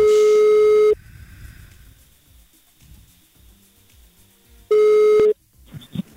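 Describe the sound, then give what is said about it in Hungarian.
Outgoing telephone call ringing out: two steady, loud ringback tones separated by a long quiet pause, the second one shorter, followed by faint clicks. “hívjuk gyorsan a naphallgatóját még, megnézzük, hogy felveszi-e”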